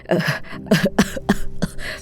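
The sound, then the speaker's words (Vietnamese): An old man coughs in several hoarse, voiced bursts with an uneven rhythm and short gaps between them. The coughs are fairly loud and stand alone without talk. “Nói rồi, ông ho lên hù hụ mấy tiếng rồi tắt thở”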